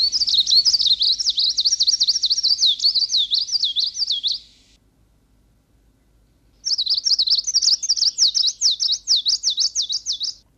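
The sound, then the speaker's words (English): Greenish warbler song recorded in East Siberia: two bouts of rapid, high-pitched, rhythmic chirping trills, each about four seconds long, separated by a short silence. “And now these next two songs will be from East Siberia.”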